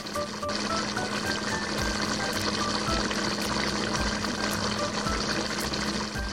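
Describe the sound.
Wontons, five pieces, being blanched in hot water give a steady, faint watery wash with soft low thumps scattered throughout.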